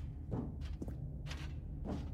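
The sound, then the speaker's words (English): Footsteps in The Stanley Parable: Ultra Deluxe as the character walks through a large door: four soft, muffled steps, evenly spaced over a low background rumble. “Stanley and the bucket walked straight ahead through the large door that read, Mind Control Facility.”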